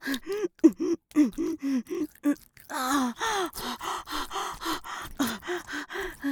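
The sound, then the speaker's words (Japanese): Heavy exhaling breaths from someone deliberately breathing out hard, heard as a rhythmic series of many short, forceful huffs with a strained, voiced edge, and no talking. “だけど呼吸が大事って聞いたから。大きめに息吐いてるの。”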